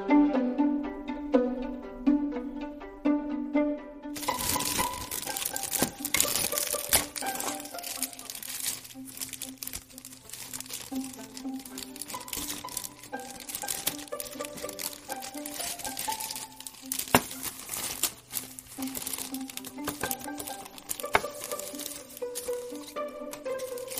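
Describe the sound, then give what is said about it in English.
Crinkling and rustling of plastic packaging as a design practice kit is unwrapped: a steady, dense run of many small crackles and crumples after a few seconds of soft tuneful music. “First, I need to unwrap the stuff, so let's unwrap it.”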